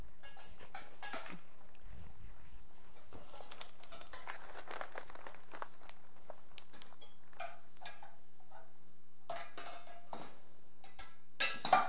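Spoon mixing in a container, heard as a long run of faint, rapid clinks and scrapes that tick along steadily for about twelve seconds, with a slightly louder clatter right at the end.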